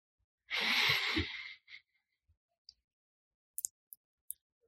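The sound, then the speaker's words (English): A group draws a deep breath in together, one long airy inhale lasting about a second, followed by a short breathy tail and a few faint scattered ticks in near silence. “And all together, right now, we'll breathe in air.”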